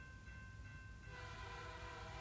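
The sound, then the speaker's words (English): Train sound effect: a sustained, steady horn chord over continuous rolling rumble, faint overall, growing fuller and busier after about a second, with no voices. “Come on, get on this train.”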